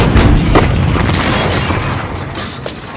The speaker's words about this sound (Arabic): الحق يا حماية الحق، الغسالة انفجرت.